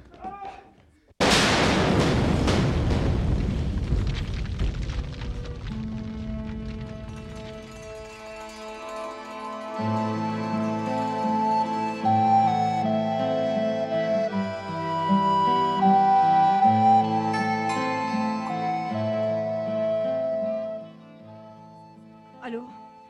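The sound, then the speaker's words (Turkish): An explosion in a mine, staged as a radio drama sound effect, begins with a sudden loud blast that rumbles and fades over several seconds. Sustained music then swells and holds until the end. “Patlamayı duydum.”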